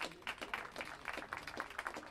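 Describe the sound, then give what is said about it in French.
Sparse, quiet applause from a small audience at a gathering, with individual claps standing out in an irregular patter. “Donc un grand merci à Antione. Je vous propose de l'applaudir, s'il vous plaît.”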